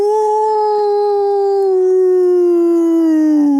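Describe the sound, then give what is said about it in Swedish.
A human voice imitates a wolf howl with one loud, sustained tonal note held for over three seconds, sliding slightly lower in pitch near the end. “Kan få en smakprov på dina topp tre djurimitationer? Ja, men då tar jag, alltså varg är ju, inte så svårt.”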